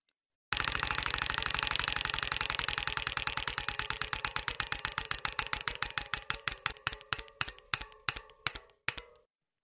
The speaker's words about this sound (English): Let's spin that wheel, sir. Here we go.